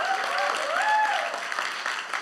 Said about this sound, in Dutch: Geef er even een applaus in de stem.